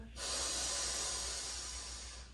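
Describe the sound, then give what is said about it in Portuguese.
One long, steady, breathy hiss of air carries through a slow yoga breath during a therapeutic Lu Jong spine session. It starts abruptly and holds at an even, fairly soft level to the end. “Palmas das mãos para cima, inspira. Expira. Inspira.”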